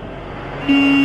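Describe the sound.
A car drives up with a low road rumble, and partway through a steady, fairly loud horn tone starts and holds to the end.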